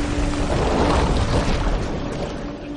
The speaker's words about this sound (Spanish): Los persas navegan hacia ellos. Los remos persas impulsan el barco.